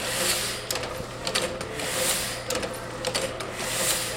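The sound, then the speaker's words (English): A Heidelberg letterpress printer and a Reliance guillotine paper cutter run in a letterpress print shop. Steady mechanical clatter and rattling repeat in a regular cycle, fairly faint and without talk. “These machines punch, cut, and print words on paper, which is what Lunalux is all about, says owner Jenny Undis.”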